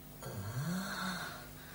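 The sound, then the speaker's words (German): A person moaning somewhere among library bookshelves: one drawn-out, low, voiced groan that slides upward in pitch, holds for about a second, then fades away. “Von dort her kam das Stöhnen. Hallo? So jammervoll klagt keine Putzfrau.”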